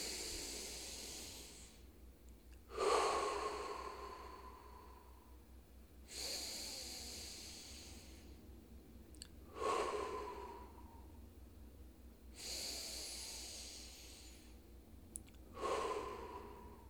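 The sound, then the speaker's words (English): Slow group breathing, drawn in through the nose and let out through the mouth, comes as a steady series of soft, hissing breaths that swell and fade at even intervals over a faint low hum. “we'll take three breaths together as part of that one connected energy, in through the nose and out through the mouth, in.”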